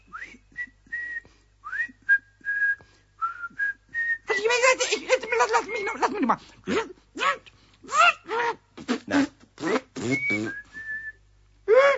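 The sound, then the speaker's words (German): Whistling in short sustained notes, some sliding upward, comes first. Then quick choppy voice-like bursts follow, mixed with a few more whistled tones. “Soll ich mal pfeifen? Na, so geht es.”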